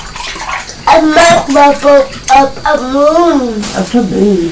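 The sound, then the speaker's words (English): Bath water splashes with bubbles in a tub, loud sloshing bursts mixed under lively, sing-song adult talk that rises and falls in pitch throughout. “Oh, and that's coming back down again, isn't it? It's the big splash. The splash of bubbles.”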